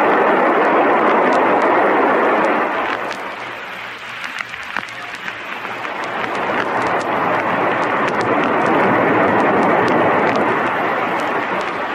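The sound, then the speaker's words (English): A spaceship blasts off in a loud, sustained, crackling roar that thins briefly midway and then swells back to full strength, holding steady to the end. “that's the fastest takeoff we ever made.”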